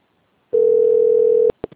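A telephone tone sounds while a call is being placed: one steady, loud, pure tone lasting about a second, then two short beeps.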